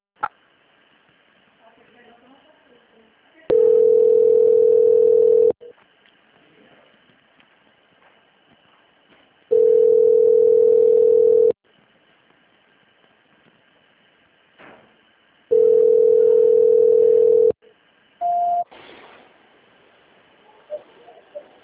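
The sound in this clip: Telephone tone during a call transfer: three long, steady mid-pitched beeps, evenly spaced roughly six seconds apart, then one short higher blip, over faint line hiss.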